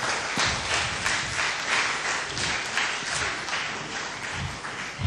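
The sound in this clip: Sustained audience applause welcoming a couple at a Lithuanian community gathering in Dublin: dense, steady clapping that fills the whole stretch without a break, with no voices over it.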